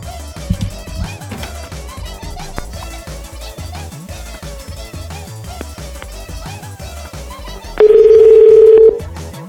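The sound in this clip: A telephone keypad tone from dialing a phone number: one steady electronic beep about a second long, loud near the end over continuous background music.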